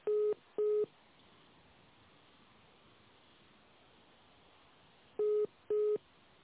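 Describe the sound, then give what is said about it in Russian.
Telephone line tones sound while a call is transferred to another department. Four short, clear beeps come in two pairs, one pair at the start and one near the end, with steady line hiss between them. “Я бухгалтерию вас соединяю, не ложите трубочку.”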